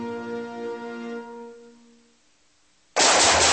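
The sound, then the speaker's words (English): Gunfire: a sudden loud blast cuts in after fading tonal music and stays at full strength to the end. “Whew, nice shooting.”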